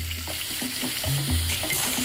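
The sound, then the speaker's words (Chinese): River snails with their tail ends clipped are stir-fried over high heat: a steady sizzle and crackle of frying with stirring, fairly loud throughout, with no voices. “对于坑螺的烹饪，当地人喜欢大火爆炒。”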